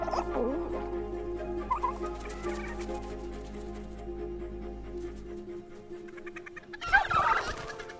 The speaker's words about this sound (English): A fox comes out from behind a caravan and several turkeys are hiding in pyramid formation behind the snowmen the children built earlier.